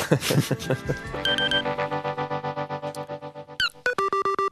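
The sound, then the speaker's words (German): Electronic beeping is sent into a phone line during a radio call-in. Steady, pure electronic tones give way to a rapid run of short, evenly spaced beeps, with speech heard before them. “Das verunsichert uns Radioamateure, wenn du irgendein Piepsen in die Leitung schießt.”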